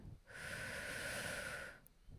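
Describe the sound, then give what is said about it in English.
A single long, quiet breath is drawn in as part of a guided relaxation exercise. The inhale is a soft, airy hiss lasting about a second and a half, with near-silence on either side. “Take a deep breath in.”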